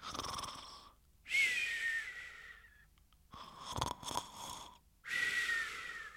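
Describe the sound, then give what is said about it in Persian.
Snoring of a scarecrow, performed by a human voice: a few long, breathy, wheezing snores with a whistling edge, fairly loud and heard alone. “این صدای پرستو نبودا، صدای خروپف خود مترسک بود.”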